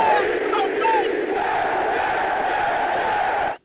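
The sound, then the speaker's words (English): A crowd of New York Jets football fans roars in a loud, steady, unbroken wall of voices that cuts off abruptly at the end. “Stand up and let me hear y'all say J-E-T-S, Jets, Jets, Jets!”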